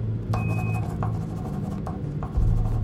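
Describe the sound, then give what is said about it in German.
Quick handwriting as coordinates are jotted down by hand aboard a spacecraft: a few short, scratchy pen strokes over a constant low hum, with no voices. “Lovell schreibt schnell die Koordinaten auf, die Swigert ihm durchgibt.”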